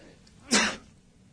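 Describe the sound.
A single sharp sneeze bursts out in one short, noisy blast, faint overall and alone against quiet background.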